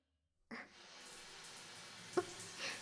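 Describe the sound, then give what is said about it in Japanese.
Hot water poured over a person, heard as a soft, steady splashing hiss that starts abruptly and runs on quietly, with one brief small tap near the end. “はい、お湯かけるよ。目つぶっててね。”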